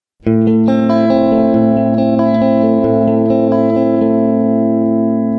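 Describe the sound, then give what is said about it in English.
Electric guitar played through a CH1 Super Chorus pedal: a single chord struck sharply, then ringing loud and sustained with a shimmering, wavering tone, alone and without voices. “Let's take a listen to the CH1 super chorus. Here's an example of me playing it. I'll play without it, and then I'll add the chorus.”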